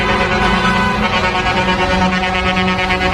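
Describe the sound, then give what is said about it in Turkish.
Truck air horns blaring from eight trucks joining a wedding convoy on a city street, a loud, sustained and layered honking that holds steady without a break throughout. “8 kamyon şoförü bir çiftin düğün konvoyuna katıldı. Havalı kornaları da vardı.”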